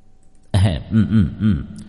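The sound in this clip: A voice clears its throat: one longer voiced grunt followed by three short, evenly spaced ones, fairly loud and low-pitched, in a spoken ghost story set at nightfall.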